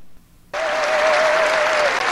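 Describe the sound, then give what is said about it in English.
A Republican crowd at a political speech cheers and applauds. After a brief near-silent moment, the clapping and cheering burst in and hold steady and loud to the end. “he says that he wants to cut off welfare for immigrants for 5 years, and the entire Republican crowd goes insane”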